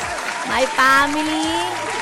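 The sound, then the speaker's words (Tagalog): An audience claps for the Santos family, the applause running beneath voices that talk and call out over it. “Dahil dyan, palakpakan po natin ang Santos fam.”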